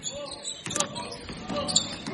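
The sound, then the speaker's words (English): A basketball is dribbled on the court during a boys' high school game, with a few sharp bounces over steady crowd noise and background voices. “He dribbles right to the basket and dumps it off for another layup. Got to stop that dribbler, man.”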